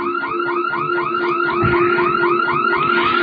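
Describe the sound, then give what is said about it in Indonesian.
A hearse's car alarm goes off in a parking lot: a loud, steady, electronic warble of many rapid, repeating rising sweeps with no pauses and no voices. “dengan suara salah satu alarm mobil jenazah yang menyala.”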